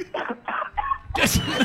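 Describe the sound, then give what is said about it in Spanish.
A person imitates an elephant coughing with its trunk turned inward: a few short, throaty vocal bursts, then a louder, breathy, rasping blast. “¡Extraordinario! Que así tosen los elefantes. Así tosen con la trompa para adentro.”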